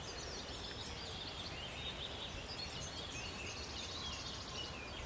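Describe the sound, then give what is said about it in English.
Wood warbler song from the edge of an oak wood: a few faint, high, shivering trills over a steady wash of background noise, with no clear full song. “You hear a wood warbler in the background, just up on the fringes of the oak wood.”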